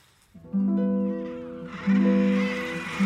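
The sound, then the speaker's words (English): Guillemot calls: two drawn-out, low, nasal, bleating cries with rich harmonics, each holding a steady pitch, with a third beginning right at the end over a hissing background that grows in the second half. “But it was, in fact, the guillemot.”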